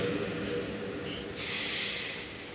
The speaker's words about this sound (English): And I think maybe we can start by just taking a deep breath, right? Deep breath.